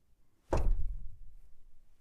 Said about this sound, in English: That's one knock.